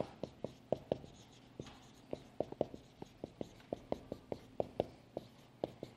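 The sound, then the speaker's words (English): Writing on a board: many short, scratchy marker or chalk strokes in an uneven but steady rhythm, each a quick rasp, with no talking. “Oh, look, I'm writing the immediate state. The intermediate state.”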